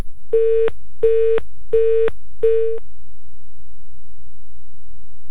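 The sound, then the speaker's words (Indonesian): Telephone busy tones sound while a reporter is redialed after a dropped call: four loud, evenly spaced mid-pitched beeps, each steady and equal in length, followed by silence. “kita coba hubungi kembali kawan reporter Ninda Olivia”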